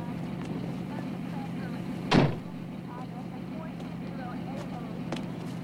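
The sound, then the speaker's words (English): Low engine rumble of a car driving up and parking outside a do-it-yourself garage where police cars stand. The rumble is faint and steady, broken by one sharp, louder burst partway through. “A car passes under the sign for Darnell's do-it-yourself garage, then joins police cars already parked outside.”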